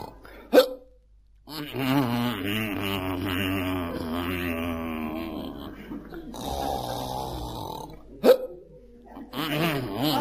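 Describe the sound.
Hiccups and snoring from a sleeper: two sharp, loud hiccups frame a long stretch of throaty, wavering snores and groaning breaths, all heard alone without talk.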